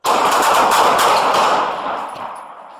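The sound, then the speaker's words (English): Gunfire from police officers during a shooting comes as a loud, dense volley of rapid shots that blur together, then fade gradually away. “shots fired, suspect down”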